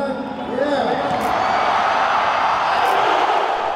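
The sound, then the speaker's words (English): A packed arena crowd at Mall of Asia Arena in the Philippines roars at a LeBron James dunk, a loud, sustained wall of cheering and whoops that builds quickly and holds. “That's the sound of LeBron dunking in the packed Mall of Asia Arena.”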